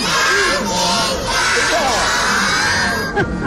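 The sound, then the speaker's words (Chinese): Thirty-eight kindergarten children in red jerseys cheering for their basketball team, many high young voices shouting and squealing together in a loud, continuous, overlapping din. “在 UBA 的集结区，38名东城幼儿园的孩子身着红色小球衣，在四位老师带领下，不停地为将军队加油。”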